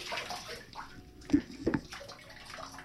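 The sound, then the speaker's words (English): A dog splashes water in a bathtub with its paws: soft sloshing broken by two sharp, louder splashes close together, then quieter lapping water. “Get your paws out of the bathtub. You're getting water all over the floor.”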